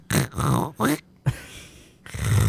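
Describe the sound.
A voice imitates the snoring of someone asleep in a two-person tent, making a few rough, grunting snorts and a long breathy rasp that comes before a final louder snore.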